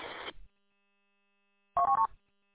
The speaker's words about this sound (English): I was trying to dial that system in just to see if I can hear what's going on where I'm headed.